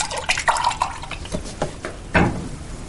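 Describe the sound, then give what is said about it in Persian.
A drink being poured into a glass: a few short splashing, trickling bursts of liquid, fairly faint, with a slightly louder gush near the end. “برای تو هم میریزم که با هم بخوریم.”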